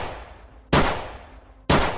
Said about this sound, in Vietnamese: Vị linh mục giơ hai tay về phía trước, anh cầm chặt khẩu súng hơn, rồi một lần nữa bóp cò.